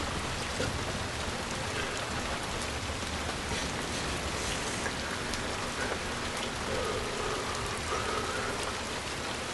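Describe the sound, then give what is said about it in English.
Steady falling rain outside a car window, a dense, continuous hiss with a fine pattering texture that holds at an even, moderate level throughout, with no voices. “He leans over and sticks his head outside, turning his face up towards the falling rain.”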